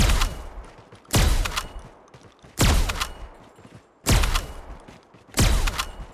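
Shotgun blasts in a first-person shooter video game where the weapon reloads automatically after a slide: four loud, booming shots at an even pace, each followed by a fading rumble, with no talk.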